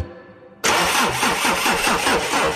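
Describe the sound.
A car engine starts as a radio jingle effect: after a short, quieter lead-in, the engine catches abruptly and loudly, then settles into a rough, rapidly pulsing idle that runs to the end with no voices.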